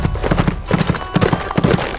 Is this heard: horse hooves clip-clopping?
yes